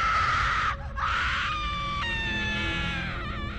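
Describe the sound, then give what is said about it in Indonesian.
A child cries and wails in a high, strained voice, sustained with only a brief break, over a rumbling, noisy background. “Loh, adik manis jangan nangis.”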